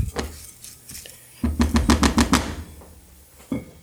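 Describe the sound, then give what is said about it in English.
Arborio rice toasting in oil in a pan with onion, stirred about: a quick run of sharp clattering scrapes in the middle, with softer scattered clicks before and after. “We're just trying to give it a nice little toast to make sure all of the grains of that arborio are nice and coated in oil.”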